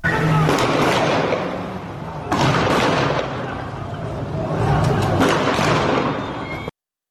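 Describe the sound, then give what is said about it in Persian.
Bursts of automatic gunfire in the streets of Iranshahr, Iran: loud, dense, continuous crackling rattle in a few sustained waves that stops abruptly. “این صدای رگبار گلوله از خیابان‌های ایران شهر بود.”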